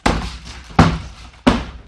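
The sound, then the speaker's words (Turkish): A person loses balance and bumps into a door: three heavy, booming thuds against it, spaced under a second apart, each fading quickly, with no talk. “Rahatsız ettimse özür dilerim. Dengemi kaybedip kapıya çarptım da.”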